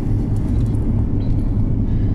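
A low, steady rumble fills a car interior while driving, a continuous engine and road drone that holds even throughout with no voices.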